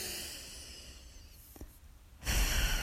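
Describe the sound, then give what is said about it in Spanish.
A person inhales and exhales deeply during guided relaxation, a soft airy breath that swells into a louder rush of air near the end. No talk is heard. “Una vez más, vamos a inhalar y exhalar de manera conjunta,”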